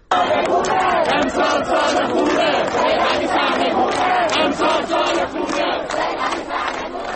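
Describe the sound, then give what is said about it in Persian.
Students chant slogans at a protest at Amirkabir University. A large crowd of voices chants loudly in unison with a steady, rhythmic pulse. “ما صدای دانشجویان دانشگاه امیرکبیر رو میشنویم.”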